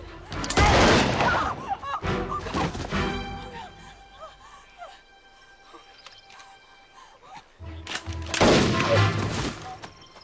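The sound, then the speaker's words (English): Gunshots in a TV drama scene as Juliet shoots a villain: a few loud, sharp bursts of gunfire, one near the start, another soon after and a final one near the end, with quieter scene sounds between them. “That was, of course, Juliet very much having Sawyer's back by way of shooting one baddie before Sawyer dispenses of another.”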